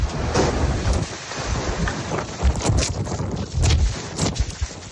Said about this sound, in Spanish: Y el sur de Alicante fue el escenario de varios reventones térmicos durante la tarde. Localidades del litoral entre Santa Pola y Guardamar del Segura sufrieron rachas de viento de más de 90 kilómetros por hora. Así sonaba el que azotó Torrevieja.